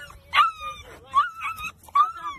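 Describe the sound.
A dog gives a few high, whining yips and whimpers in quick succession. They are fairly loud over a low rumbling background.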